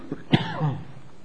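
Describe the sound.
A single brief cough from a tickle in the throat: one sharp, faint burst with a raspy, throaty tail, heard alone.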